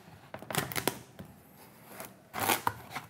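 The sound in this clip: A knife cuts a Hokkaido pumpkin in half with quiet, crisp crunching and cracking bursts. One cluster comes early and another near the end, with soft scraping between them.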